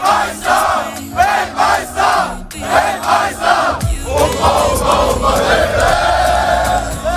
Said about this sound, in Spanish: Así suenan a estas horas las calles de Nueva Jersey.